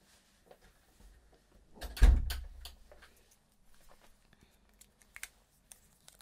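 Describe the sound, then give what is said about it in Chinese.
A door is shut by someone giving fever care, heard as a single soft thud with a brief low rumble, followed by a few faint clicks and taps in otherwise quiet surroundings. “好，我帮你把门关上。”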